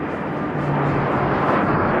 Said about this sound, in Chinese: 迅捷而来的歼击机梯队分别由16架歼 8F 飞机、15架歼10飞机和12架歼11飞机编成。